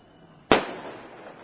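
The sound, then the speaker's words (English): A firecracker explodes nearby at a New Year's celebration by a central station in Hamburg: a single sharp, loud bang after a moment of quiet, followed by a rumbling tail that fades gradually over about a second. “That was right next to you that blew up. Who even did that? People just dropped it. I was an old lady, I think, who just dropped a firecracker.”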